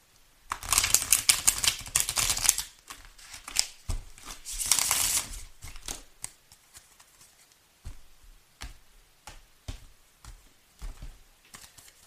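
A tarot deck is shuffled: two dense bursts of riffling cards are followed by a run of separate soft taps and clicks. The shuffling is fairly loud and stands alone, with no talk.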